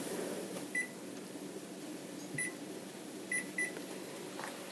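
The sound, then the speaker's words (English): Four short, high electronic beeps come from an oven's control panel as it is set to preheat to 200. They are spaced unevenly and sit faintly over a steady low background hum. “all right, I'm going to preheat this oven to 200, I think.”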